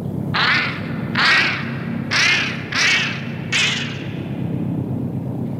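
Geese cackle in five distinct nasal, harmonic honks spaced fairly evenly over a steady low rumble.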